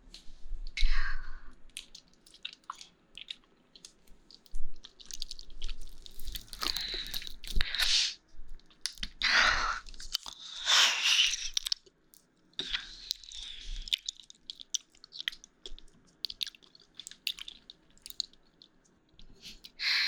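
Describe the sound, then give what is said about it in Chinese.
Chewing and eating food up close, wet crunching and squishing bites repeated many times in irregular bursts, with no talk. “还是第一次吃这个味道吧，这个味道我很喜欢。”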